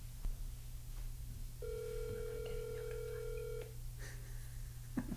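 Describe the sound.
After a number is dialed, a telephone line gives a single steady ringing tone lasting about two seconds over a low background hum, with a few faint clicks before and after.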